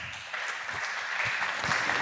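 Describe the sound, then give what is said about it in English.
Applause from an audience welcoming a speaker to a talk, a steady wash of many clapping hands at moderate level, with a few low thumps underneath. “So give him a warm applause for his talk.”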